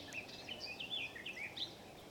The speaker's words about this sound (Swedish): Just nu är det lövsångare och trädgårdssångare som sjunger.